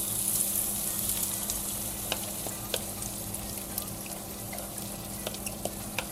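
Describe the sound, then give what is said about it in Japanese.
Onions sizzle as they go into a hot pan, a continuous bright hiss of frying with scattered small pops and crackles throughout. “ちょっと玉ねぎを入れたいと思います。少しシャーっていう音がすると思います。”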